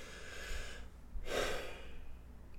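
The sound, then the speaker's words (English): A person takes a quick inhale and exhale away from the microphone, giving two soft, faint breaths, a longer airy draw followed by a shorter breathy push. “I'm going to do a quick inhale, quick exhale off the mic.”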